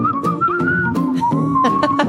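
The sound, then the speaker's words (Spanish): A person whistles a sustained, clear tone that wavers slightly in pitch and holds for about two seconds, loud and alone. “¿Ustedes saben qué significa ese silbido?”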